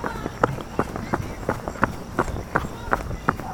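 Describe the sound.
Footsteps of someone jogging down a street at dusk, a steady, evenly paced series of about ten firm footfalls that thud at a regular running rhythm over a low background rumble.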